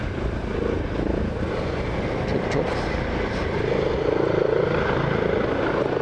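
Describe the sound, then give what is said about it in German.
A helicopter taking off: a loud, continuous rotor and engine roar that holds steady throughout and swells slightly in the second half. “ein abhebender Heli-Chop-Chop. Ja, hatte ich auch schon mal im Podcast. War sehr laut.”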